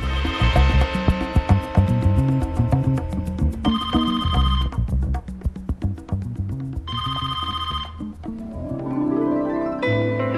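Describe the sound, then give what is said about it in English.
A telephone rings in an empty room with packed luggage on the floor. Bright, rapidly trilling bell bursts come in two full rings and the start of a third, with pauses of about two seconds between them. “A phone rings in a deserted room, the occupant of which has left packed luggage in the middle of the floor.”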